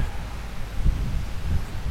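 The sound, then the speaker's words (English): Wind buffets a lavalier microphone on a beach after it lost its little fluffy windscreen, giving a continuous low, rough rumble with uneven gusts rising and falling throughout. “You can tell, I'm pretty sure that it's windy today.”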